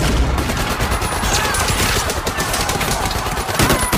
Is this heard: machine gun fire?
yes

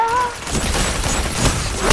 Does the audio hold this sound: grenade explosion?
yes

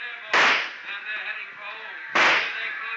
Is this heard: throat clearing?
no

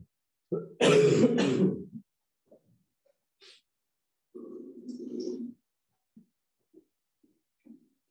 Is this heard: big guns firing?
no

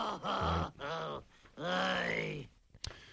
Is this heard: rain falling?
no

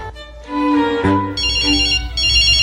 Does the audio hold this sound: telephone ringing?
yes

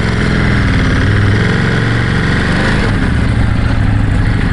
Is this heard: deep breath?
no

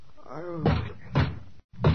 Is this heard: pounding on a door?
yes

